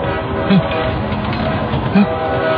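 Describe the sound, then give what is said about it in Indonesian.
Train rolling past with a loud, steady rumble of rail cars that fills the whole clip, and two brief low tones standing out above the noise. “terdengar suara kereta api”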